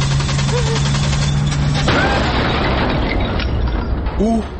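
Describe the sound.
A car being started, a steady mechanical hum running for nearly two seconds, then cut off by a sudden loud burst of noise like an explosion that continues as rough crackling to the end.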